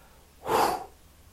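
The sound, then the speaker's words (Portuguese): A single forceful exhale during a breathing exercise: one breathy rush of air lasting under half a second, alone against a quiet background. “Inspira, segura, segura o ar o máximo que puder. E expulsa repetidamente esse ar.”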